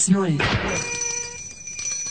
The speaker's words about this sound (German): Wartet, ich rufe die Waldtelefonzentrale an. Drüben an der alten Eiche hängt ein Telefon.